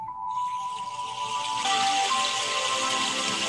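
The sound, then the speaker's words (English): Raindrops patter in a theta-tone meditation recording with isochronic tones. A soft, sustained musical tone is joined by a steady hiss of rain that grows noticeably louder about halfway through. “Now what you hear is music, raindrops, but if you listen real carefully, there's theta tones working in there.”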